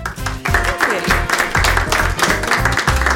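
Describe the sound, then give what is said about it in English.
A live studio audience applauds to welcome a guest onto a talk show. Loud, continuous clapping fills the whole moment, holding a full, even level without a break. “Live audience has given you a warm welcome, Diana.”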